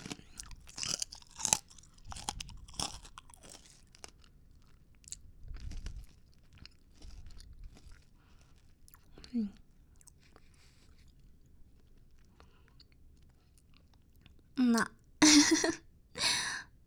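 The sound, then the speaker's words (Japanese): Crunchy chewing of a milk-flavored snack: irregular crisp bites and crackles early on, then a quieter stretch with sparse mouth sounds, followed by a few louder, sharp crunches near the end. “食べ終わりました。 はい、美味しかったです。また残りは後で食べようかなと思います。”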